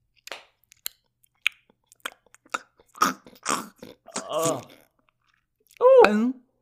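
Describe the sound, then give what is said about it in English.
Chewing and biting into food during a tasting, starting with a few sharp, crisp clicks, then louder wet crunching bites and a brief hummed murmur at the end. “Are you taking another bite?”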